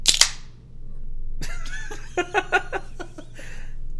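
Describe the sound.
A beer being opened gives a sharp pop and a brief hiss, followed by people talking and chuckling.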